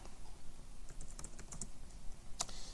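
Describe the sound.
Keys tapping on a computer keyboard while writing C code: a steady run of soft, quiet clicks, with a sharper click near the end.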